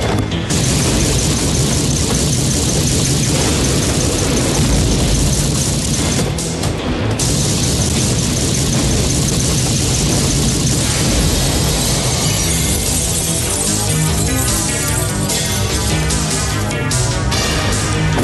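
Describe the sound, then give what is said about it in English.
A video game weapon with infinite ammo fires nonstop, producing a dense, unbroken wall of booming explosions and shattering blasts. The sound stays loud and constant throughout, with no pauses and no voices. “it's just like this wall of explosions that just follow. It's just like an infinite ammo bandana on, and he's just sitting there just unloading.”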